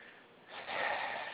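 A person drawing a deep breath in: a faint, airy inhale swells after a quiet moment and holds steady to the end, with no talking.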